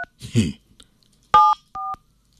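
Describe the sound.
Phone keypad tones ring out as a number is dialed: short, clean two-tone beeps separated by silent gaps, with a brief voice speaking between the first beep and the later ones.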